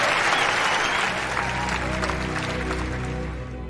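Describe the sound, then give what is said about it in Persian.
Audience applause fills the space as a thick, continuous wash of clapping hands, holding steady for a few seconds before easing slightly toward the end. “واه، هیچ فکر نمی کردم با زدن این حرف برام دست بزنن.”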